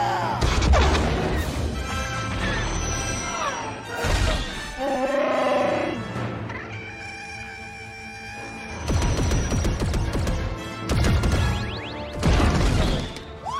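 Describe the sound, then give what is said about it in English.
Gunfire from a starship's gunner turret in a video game: loud blasting bursts and crashing impacts come in several waves, with sustained tonal drones and a busy action mix between them. “We got Rey in the gunner position, firing away”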